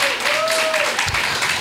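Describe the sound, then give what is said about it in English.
Dense applause from a conference audience rises for the speaker's husband, a steady wash of clapping that runs the whole time with a voice or whoop carried over it. “Can we give my husband a round of applause?”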